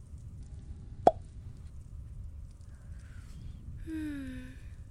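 A single sharp pop as a cork comes out of a wine bottle being opened, loud against a faint background hiss, followed near the end by a brief soft ringing tone.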